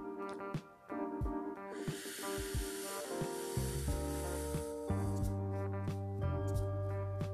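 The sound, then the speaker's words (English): A slow, steady inhale during a breathing exercise, drawn for about three seconds as a soft airy hiss over gentle sustained music, then easing off as the music carries on. “So in your comfortable position, let's inhale for 4 seconds. Ready? I'll do it with you.”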